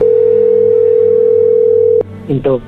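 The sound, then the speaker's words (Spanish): A steady telephone dial tone hums loudly for about two seconds while a call is being placed again. A sharp click then cuts it off, and a few brief, softer sounds follow. “Vamos a marcarle de nuevo. No va a contestar ya.”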